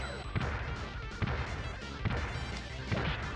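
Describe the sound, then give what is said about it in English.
Heavy crashing hits from safes being smashed in the bonus stage of the TMNT Tournament Fighters video game, landing as roughly evenly spaced blows over a dense, busy game soundtrack. “And this is when you have to destroy the saves and stuff. Or the safes.”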